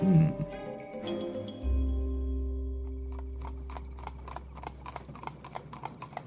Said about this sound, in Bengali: দরজায় দেখলাম দুটো ঘোড়ার গাড়ি দাঁড়িয়ে।